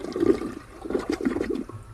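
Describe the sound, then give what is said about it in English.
A toilet flushes, its water rushing and swirling down the drain in a steady, loud gurgling wash that lasts the whole moment, with no voices over it. “I'm going to flush it and just show you. See, the water rushes around and goes down.”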